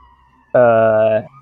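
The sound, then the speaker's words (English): A siren sounds in one short, loud burst, a steady harmonic tone held for about two-thirds of a second before it cuts off. “Pardon the sirens.”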